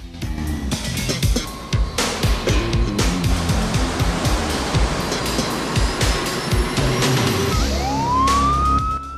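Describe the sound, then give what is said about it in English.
A siren wails and climbs in pitch near the end, for a police car pulling up beside a jumbo jet. Before it comes a long stretch of dense rumbling with sharp, repeated clattering hits. “in the back seat of a police car pulling up beside the plane”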